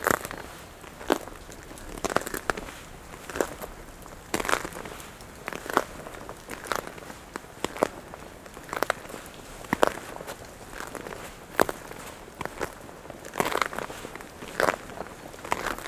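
Footsteps crunch over patches of ice on a forest track at a steady walking pace, with many crisp, crackling steps.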